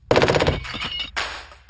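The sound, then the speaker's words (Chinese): A German MG42 general-purpose machine gun with a very high rate of fire lets off a fast, ripping burst, followed by a few more uneven bursts of loud gunfire. “美国大兵成了德军 MG42 通用机枪的靶子。 这就是德国 MG42 通用机枪，”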